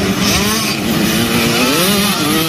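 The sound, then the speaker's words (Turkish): Motocross motorcycle engines revving during a European motocross championship race on a motocross track in Hayrabolu, Turkey. A loud, continuous, buzzing engine drone rises and falls in pitch as the bikes rev. “Beş ülkeden 134 motorcu ve nefes kesen motor sesi.”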